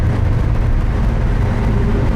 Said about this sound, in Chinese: 踩到底吧，油门。 已经到底了。 再快点。 不行了，到底了。车都快散了。